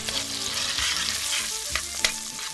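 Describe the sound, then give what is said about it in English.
Sausage fries in a pan for a French-style shepherd's pie, giving a dense, steady sizzle with a few sharper crackles and pops breaking through, and no talk over it. “We cook sausage, another Dori twist for this French version of shepherd's pie, then return the bouillon and our cut-up beef to the pan.”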